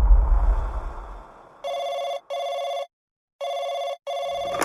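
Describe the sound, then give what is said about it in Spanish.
A telephone bell rings loudly in four bursts, grouped as two double rings with a short gap between the pairs. A low rumble at the start fades away before the first ring. “Ruth recibe una llamada telefónica totalmente extraña”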